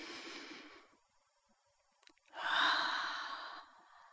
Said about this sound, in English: let's do our three deep breaths. Take a deep breath in.